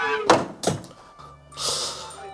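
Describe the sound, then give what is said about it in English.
A time machine door opening: a few heavy thunks, then a steady hissing release that fills the last second. “All right, we seem to have stopped. Let's open her up and see where we are.”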